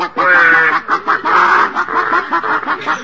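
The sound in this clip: People imitate chickens clucking inside a chicken coop at night, making a steady, choppy stream of nasal clucks at fairly loud level throughout.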